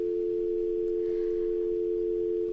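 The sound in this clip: Telephone dial tone after a dropped call on a phone-in show: one steady, unbroken hum that stays at the same level throughout and is heard alone.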